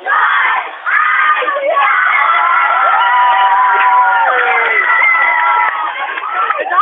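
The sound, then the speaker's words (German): Football fans in a World Cup viewing pub scream and cheer wildly, a loud, unbroken roar of excited voices with a thin, telephone-like sound. “Ja, es ist wirklich unglaublich. Die Leute vergitzeln hier im WM-Stübli. Jetzt fängt es gerade an zu zählen. Man hört das sicher.”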